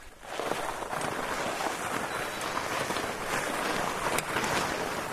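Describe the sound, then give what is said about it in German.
Wide fat-bike tyres, up to 12 cm across, roll over a snow-covered surface, making a continuous, dense rushing noise that stays fairly loud and even throughout, with faint scattered ticks. “Die können bis zu 12 cm breit werden und das hat den Effekt, dass man damit auf losem Untergrund fahren kann, auf Sand oder zum Beispiel auch auf Schnee. Und das klingt dann so.”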